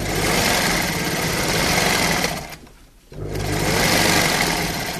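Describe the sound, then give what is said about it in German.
A 70-year-old sewing machine running with a dense, fast whirring clatter that briefly slows and fades near the middle, then picks back up to full speed. “Das ist das Geräusch einer 70 Jahre alten Nähmaschine.”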